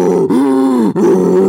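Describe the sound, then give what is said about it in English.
A voice imitates the TARDIS from Doctor Who taking off, a loud, continuous groaning drone whose pitch wavers and swells. The drone is split into three stretches by two brief breaks. “What is that? That's the sound of me TARDIS taking off.”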